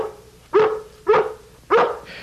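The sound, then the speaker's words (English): A dog barks three times: sharp, evenly spaced barks, each ending in a short tail, over a faint steady hum. “I told Lassie to bark every time Gramps sits up, because Gramps isn't supposed to sit up.”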